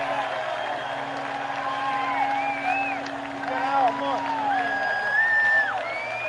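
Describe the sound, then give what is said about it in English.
Baseball crowd cheering after a solo home run at a minor-league game, a sustained roar with whistles, heard under a man talking steadily over it. “And the win for a solo shot. It's 3-1 Shuckers. Listen to that crowd roar as he touches home.”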